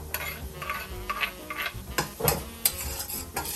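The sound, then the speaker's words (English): Stirring and a soft sizzle as garlic and ginger are added to onion, cayenne and bell pepper in a pot over very low heat for lentil soup, with many faint scraping bursts at an uneven pace. “So now we're going to put in our onion, cayenne, and bell pepper on very low heat. And now I'm going to put in my garlic and my ginger.”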